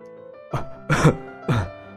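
A man lying in a hospital bed coughs three rough, throaty times over about a second, the middle cough longest and loudest, with quiet between.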